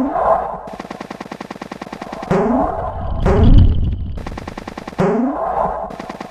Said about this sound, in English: There was the second cannon.